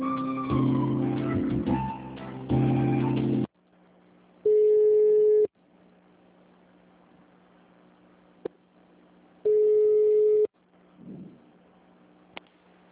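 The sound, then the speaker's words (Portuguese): Telephone line tones play while a call is transferred to an administrative manager. Two long, loud, steady beeps are separated by a quiet hum, with a louder tonal passage at the start. “Tá, eu vou te passar então pro gerente administrativo, tá? Só um pouquinho.”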